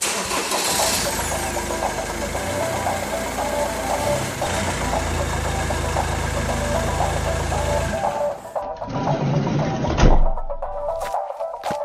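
A car engine starts and settles into a steady, rumbling idle that stays loud and constant throughout.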